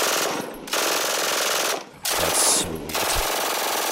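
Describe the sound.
An MG-42 machine gun fires loud, continuous ripping bursts at a very high rate, a few long strings of fire broken by brief pauses.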